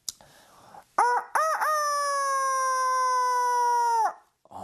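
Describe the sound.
A human voice imitates a chicken crowing during a pretend zoo game with a child: a few short, clipped harmonic syllables, then one long, loud, sustained crowing note that holds steady and cuts off abruptly.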